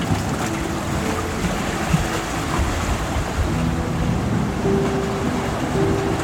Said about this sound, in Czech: A oceán ti k tomu hraje uklidňující melodie.